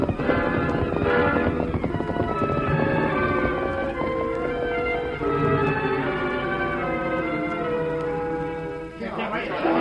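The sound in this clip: Hoofbeats of a horse galloping away, a continuous clip-clop rhythm running through the whole clip over other dense, layered sound.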